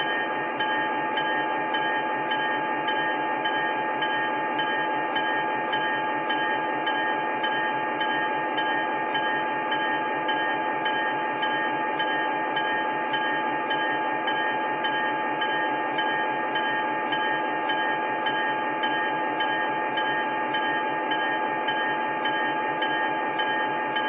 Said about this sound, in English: traffic from College, Pennsylvania, on track 1, train number 260.